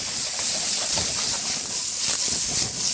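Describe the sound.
Steady, bright sizzle of browned, crisp potatoes frying in a pan as onions and bacon are added. The continuous hiss holds level with no talk.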